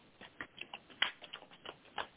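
Tarot cards are shuffled and drawn in a series of faint, quick snaps and flicks. The soft, irregular card taps come one after another, many in a short span, with one slightly sharper slap near the middle.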